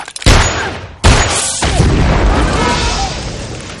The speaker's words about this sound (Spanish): Después dispara a varias bombonas que hay en un rincón del patio.